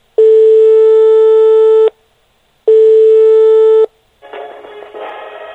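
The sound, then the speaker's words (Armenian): An unanswered call to the Armenian delegation's office telephone at the Council of Europe's parliamentary assembly: two long, loud, steady electronic tones separated by silence, followed by a fainter, buzzy line signal. “չի պատասխանում անգամ ԵԽԽՎ-ում հայաստանյան պատվիրակության աշխատասենյակի հեռախոսը։”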